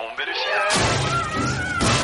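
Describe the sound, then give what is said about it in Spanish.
A club smashes into a gadget in a comedy film scene and sends it flying out through a window. A sudden loud, crashing impact cuts in partway through, followed by a sustained, noisy clatter, with a thin whining tone heard before and after the hit. “Bacterio sigue tratando de matar al mosquito con una porra. Golpea otro de sus artefactos que sale disparado por la ventana al exterior”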